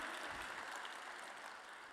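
Faint, steady applause from an audience at a community showcase before winners are announced, a soft continuous wash of clapping with no voices standing out.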